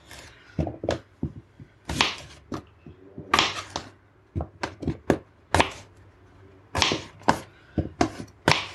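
A knife slices potatoes for air fryer breakfast potatoes, making many sharp, crisp cuts in an irregular rhythm. Some cuts come in quick clusters and others are spaced apart, all fairly loud, with no talking.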